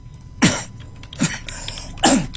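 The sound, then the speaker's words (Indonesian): Three sharp coughs from one person, spaced apart and fairly loud, with no talk. “batuk dulu.”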